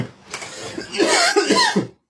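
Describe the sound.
Harsh, irritated coughing from a person whose drink of cognac went down the wrong way: a first rough burst, then a fit of several rasping, strained coughs with throaty voiced edges.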